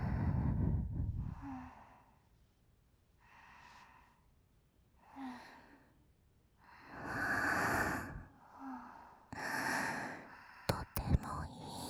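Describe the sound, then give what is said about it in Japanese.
Slow, deliberate breathing in and out during a guided breathing exercise, with soft airy inhales and exhales alternating in a steady, unhurried rhythm. A couple of sharp clicks come at the very end. “吸って吐いて、”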